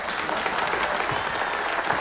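Party crowd at a mansion applauding the host's introduction, with steady, dense clapping at a moderate level running evenly throughout.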